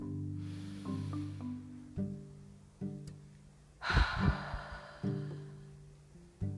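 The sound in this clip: A deep breath taken before a tarot reading, heard as a soft, airy inhale and exhale midway through, over quiet sustained background tones that shift notes a few times.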